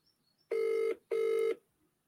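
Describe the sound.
An outgoing call to a mobile phone rings as a double ring: two short, buzzing, mid-pitched bursts in quick succession, fairly faint and alone.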